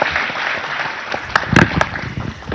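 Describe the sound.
An audience applauds a performer with steady clapping at a moderate level. A few sharper, louder claps stand out near the middle before the applause carries on evenly.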